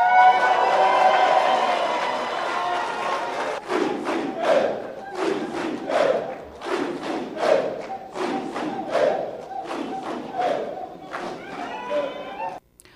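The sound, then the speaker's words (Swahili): A crowd cheering and ululating in celebration of an election victory as the winner is announced. A sustained roar opens, then many loud rhythmic bursts of shouting and trilling voices follow before the sound cuts off abruptly. “na ni kwa vifijo na ndelemo hivyo vya kupokea ushindi wa Hassan Mwinyi.”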